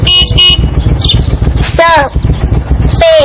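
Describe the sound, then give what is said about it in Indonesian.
Motorcycle engine rumbling low and steadily throughout, with a few short horn toots and a voice speaking over it. “Masya Allah, ternyata sepeda motor. Sepeda motor.”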